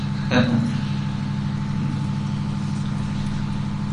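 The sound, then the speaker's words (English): A noisy running generator gives a constant low droning hum that stays steady throughout, with a short burst of noise near the start. “May I just ask you, last year we felt the generator is appropriate. Yes. Yes, I forgot that, but it's actually quite noisy.”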